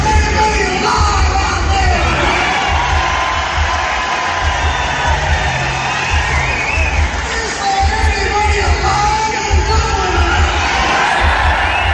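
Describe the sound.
Loud crowd cheering and yelling at a rock concert at the RDS Arena, a dense, unbroken roar of many voices that holds steady for the whole stretch.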